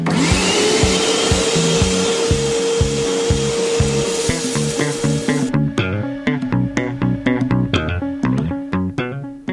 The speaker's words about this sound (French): l'émission radio idéale pour passer l'aspirateur.